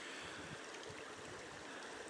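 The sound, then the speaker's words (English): A river flowing gently at the point where it meets a reservoir: a soft, continuous, even rush of water, faint and unbroken throughout. “You could probably hear the river flowing gently in the background. This is the point where the river actually does meet the water level of the reservoir.”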